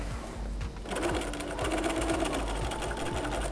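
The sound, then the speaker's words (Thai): A sewing machine stitches fabric near a corner during a sewing tutorial, running as steady, rapid, rhythmic stitching with a low mechanical hum throughout. “ถ้าเราเจอมุมนะคะเราจะต้องเลื่อนลงจากมุมมาประมาณ2เซนแล้วจึงเริ่มเย็บเย็บมาได้สักนิดนึงย้อนนะคะ”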